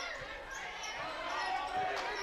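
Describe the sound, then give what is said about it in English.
A basketball is dribbled on court during a women's basketball game, making a few soft, low bounces under steady crowd noise and voices. “Still has the dribble going.”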